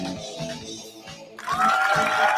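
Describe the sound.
Applause from a studio audience bursts in partway through, a dense, bright wash of clapping that follows a quieter opening passage and carries on steadily to the end.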